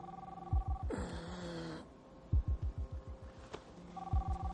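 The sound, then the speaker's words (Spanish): A mobile phone rings with a steady electronic ringtone as someone lies slumped on a car seat. The ringing stops for a loud noisy burst and then returns, with a low rhythmic throbbing pulse underneath throughout. “Su móvil comienza a sonar.”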